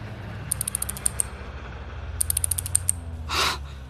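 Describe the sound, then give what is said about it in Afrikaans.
A safe's lock mechanism opens after its code is entered: two quick runs of bright ratcheting ticks, each about seven clicks, then a short breathy burst. “Nou moet jou kode werk, Simon.”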